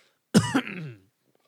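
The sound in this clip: Someone with something stuck in their throat gives one short, raspy throat clearing that ends in a cough-like burst, heard alone with no talk.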